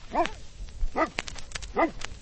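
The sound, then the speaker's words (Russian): A Newfoundland Landseer search-and-rescue dog barks three times at an even pace, each bark deep, full and resonant, with a few short faint sounds in between. “Это Кера, ее порода Ньюфаундленд Лензер. Даже по голосу можно определить, что собака она добродушная, рассудительная.”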